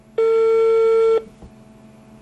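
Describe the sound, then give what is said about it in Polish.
Telephone ringing tone on an outgoing call to an old number: a loud, steady mid-pitched tone lasts about a second, then cuts off. After a short quiet gap, it starts again right at the end. “Ten numer znalazłam w starym kalendarzu z 96 roku. Bardzo mi zależało, aby ktoś podniósł słuchawkę.”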